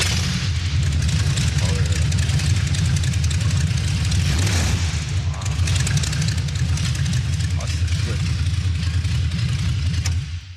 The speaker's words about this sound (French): puis le son du V8 quoi. Bah justement, on se l'écoute. Allez, vas-y. Alors ça se démarre